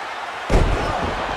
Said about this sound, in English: Harley Race with a huge power slam, reverse it.